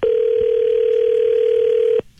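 A telephone dial tone sounds as a call is placed from a radio studio to a listener: one steady, unbroken mid-pitched tone for about two seconds, then it cuts off abruptly into near silence.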